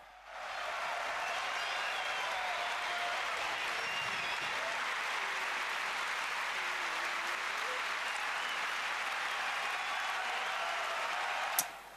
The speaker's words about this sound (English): these two have so much deserved this applause.